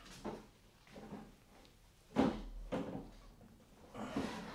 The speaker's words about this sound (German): Schau du mal im Kleiderschrank nach. Ich nehme mir die Kommode vor.